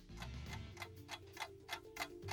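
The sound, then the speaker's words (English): Steady ticking of a quiz countdown clock: a regular run of sharp, even clicks at a brisk pace, clear and alone with no voices over it. “start the clock.”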